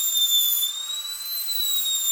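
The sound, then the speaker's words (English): A dentist's drill carves an eggshell with a thin, piercing, high-pitched whine that holds steady, its pitch shifting slightly as it works. “uses a dentist's drill to carve eggs. While it may be hard on the ears, the result is easy on the eyes.”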